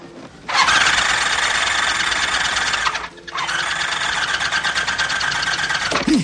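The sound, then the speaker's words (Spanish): A motorcycle engine is cranked in an attempt to start it: two long bursts of rapid, whirring starter noise separated by a brief pause, loud and steady throughout. “se sube a la moto, tira el casco al suelo y trata de arrancarla.”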